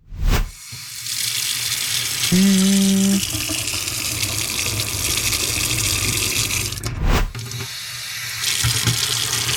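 Warm water runs from a tap in a hot-or-cold guessing game, a steady, full rushing flow. A brief tonal squeal rises early on, and clicks mark the start and a later break in the stream.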